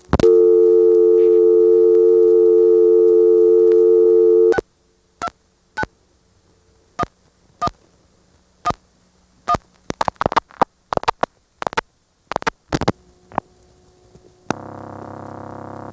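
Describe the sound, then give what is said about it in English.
Call-progress sounds on a North Carolina telephone line: a loud steady tone cuts off, then a long series of sharp clicks and brief bursts, with another buzzing tone starting near the end. “After I dial the last digit, you'll hear some of those call going through sounds.”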